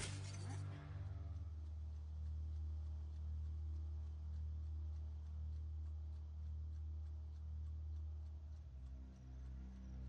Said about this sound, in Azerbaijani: Qapını sındır. Baş üstə, baş üstə.